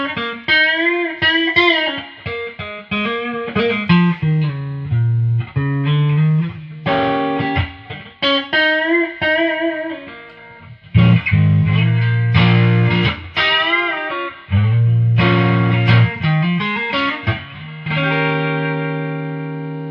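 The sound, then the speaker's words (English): Electric guitar through a small transistorized amp with an 8-inch speaker, lightly overdriven: a loud run of picked notes and strummed chords in uneven phrases, alone without talk, ending on a sustained ringing chord. “I kind of dig the sound. I mean, something about this weird transistorized 8-inch speaker that just has a charm to it.”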